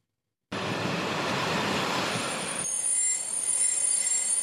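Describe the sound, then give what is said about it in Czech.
A train moves through the reconstructed Praha Vysočany railway station in Prague, on the line toward Nymburk. A loud rumble of rolling wheels cuts in, then drops to a quieter hum laced with thin, high wheel squeals. “Po tříleté rekonstrukci se otevřela zrekonstruovaná stanice Praha Vysočany a navazující část tratě směrem na Nymburk.”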